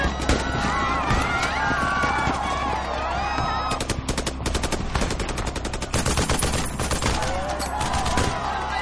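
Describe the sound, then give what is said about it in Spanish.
Guards fire guns without pause, producing many loud, rapid shots in dense, overlapping bursts like machine-gun fire. Shouting voices are mixed in, mostly in the first few seconds. “Los guardias comienzan a disparar sin piedad y caen víctimas sin parar.”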